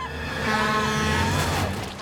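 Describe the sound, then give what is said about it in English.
A truck rumbling past on a main road, a loud continuous rumble with whining overtones that swells toward the middle and then eases slightly. “the truck rumbles past, flattening the ham”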